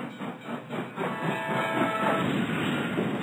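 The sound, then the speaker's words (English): Train-wreck sound effect: a hissing, rumbling rush of train noise with whistle-like tones, steady and fairly loud for about three seconds. “That was a train wreck. Yeah. That was the sound effect of a train wreck.”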